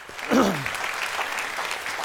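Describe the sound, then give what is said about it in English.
A church audience applauds during a service, steady and moderately loud clapping with a brief vocal cry near the start. “So thank you for your generosity. Yeah, we can applaud that.”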